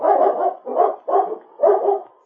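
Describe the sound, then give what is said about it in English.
Large dogs bark in four rough, throaty bursts with short gaps between them, loud and without voices. “I think we'd better put the dogs outside. They're a bit large for this place.”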